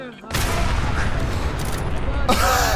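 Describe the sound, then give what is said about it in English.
Video game gunfire and explosions, a dense, continuous burst of rapid shots and booms that starts abruptly and flares up again with a sharp blast near the end. “I shot the one that blew up.”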